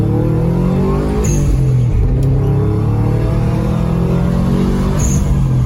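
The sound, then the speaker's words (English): Imitation of a Honda Civic engine noise: a loud, continuous buzzing drone with a wavering revving pitch runs steadily throughout, with no talking. “how do you make a Honda Civic noise?”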